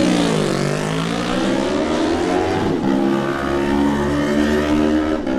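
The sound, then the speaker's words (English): A Triumph racing motorcycle engine roars past at a road race, loud and high-pitched. Its tone dips briefly near the start, then holds a steady, strained note with no voices. “Jack Fowler on the Triumph. What a great sound that is.”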